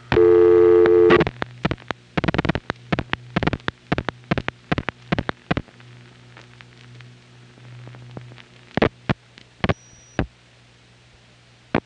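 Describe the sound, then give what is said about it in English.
Telephone line being dialed to inward operators: a steady tone at the start gives way to many sharp clicks, with a low hum and static between them and a brief high tone near the end. “Now he's going to dial a few more inwards on 214-609 and 815.”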